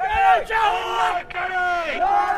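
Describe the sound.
Around 40 protesters heckling the Taoiseach in Cork shout loudly together, with raised, strained voices forming a continuous, rough wall of crowd noise.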